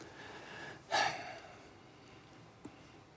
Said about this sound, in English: this is where we all take a deep breath and exhale, recenter.